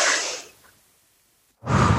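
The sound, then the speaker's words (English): Deep breaths during a breathing exercise: a loud, airy exhale fades out, then after a silent pause a second strong, rushing breath begins. “That feels different. That's just a weird way for me to breathe”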